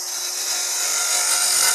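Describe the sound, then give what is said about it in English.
A bowl gouge cuts wood on a lathe spinning at top speed, about 3,000 RPM, producing a steady, bright, high-pitched hiss that holds evenly throughout, with a faint constant hum beneath and no voices. “I'm going to take a chisel. And this is called a bowl gouge. We'll turn the lathe on, and we're running at top speed here, which is about 3,000 RPM.”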